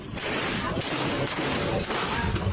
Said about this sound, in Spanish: En este caso, la persona dispara contra las vitrinas de una tienda normal.